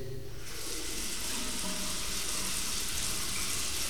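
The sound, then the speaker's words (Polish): Water runs from a bathroom tap in a steady, even rush. It starts after a brief pause and holds at a constant, fairly loud level to the end, with no voices. “Teraz mogę puścić wodę.”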